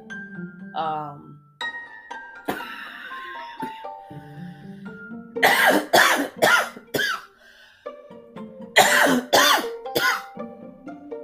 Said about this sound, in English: usually when I start coughing like that, I should have muted. I should have muted that.